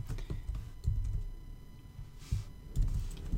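Typing on a computer keyboard while writing code and entering names, with soft, irregular keystrokes and a few louder clicks, fairly faint throughout.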